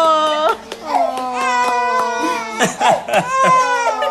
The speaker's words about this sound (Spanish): ¿No querés oír llorar? Ahí está. Sí, llora. ¡Ay, bebé!